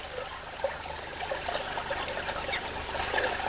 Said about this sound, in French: T'as vu, c'est bizarre, l'eau elle bouge pas, et là il y a du courant là.